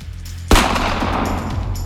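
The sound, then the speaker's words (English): A firearm fires once with a loud, sharp crack, followed by a sustained rushing, noisy tail over a low hum. “with my firearm still in my other arm, I look at him from up on the floor and say, "My body is my temple, bitch." And I aim and I shoot.”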